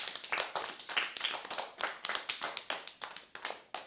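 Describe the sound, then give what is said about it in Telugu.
Audience clapping after a child tells the hare-and-tortoise story at a cultural program: many sharp, irregular hand claps in a lively, uneven rhythm, fairly loud and without voices. “Claps కొట్టండి.”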